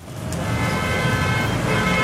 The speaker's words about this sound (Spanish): Ash, ¿una hora en este trancón y llegar a cocinar? ¡Qué pereza!